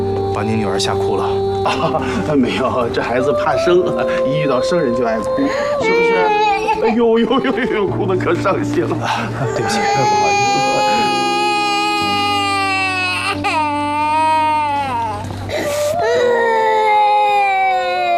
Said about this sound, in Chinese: 这孩子怕生，一遇到生人就爱哭，是不是？哎呦呦呦呦，哭得可伤心了。